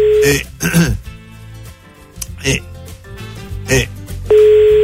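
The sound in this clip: A telephone ringback tone on a call sounds as a steady, plain electronic tone at the start and again at the end, with voice sounds and throat clearing in between.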